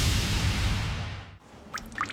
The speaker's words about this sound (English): Hey, it's your ceiling vent, so I'm dripping. Could be the rain, could be the upstairs bathroom.